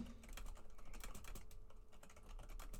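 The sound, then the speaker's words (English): Rapid typing on a computer keyboard, many sharp key clicks in a brisk, uneven rhythm with steady loudness throughout and no voices. “So I typed in get a hold of Gronk's people because I wrote down Gronk interview.”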